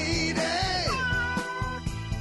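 A cat's meow glides in drawn-out, bending cries that rise and fall in pitch, set against the steady beat and tones of a song.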